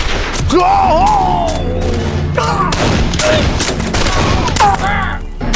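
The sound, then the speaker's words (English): Winchester rifle gunfire in a shootout with riders: several sharp, loud shots burst through a dense, continuous clamor that stays heavy from start to finish. “all four of the men were holding Winchesters. They're behind us! Shoot them! Shoot them! Duff raised his rifle and with the first shot took down Morell.”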